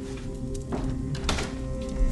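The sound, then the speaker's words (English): A door closes in a hallway, heard as a couple of muted knocks and clicks over faint background noise, with no talk. “Nix closes the door behind Jonah, who finds himself in a deserted hallway.”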